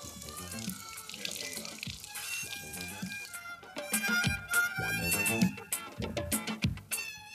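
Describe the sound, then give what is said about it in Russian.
Tap water runs into a sink while someone brushes their teeth. The splashing is steady at first, then grows louder and more uneven partway through. “Берет с полки зубную щетку, выдавливает на нее немного пасты. Чистит зубы.”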